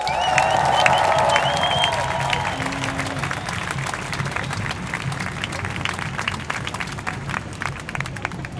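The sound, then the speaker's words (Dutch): An audience applauds a speaker at a demonstration with thunderous, steady clapping that fills the whole stretch. A few cheers rise over it early on. “Een daverend applaus voor Mo Kotesh.”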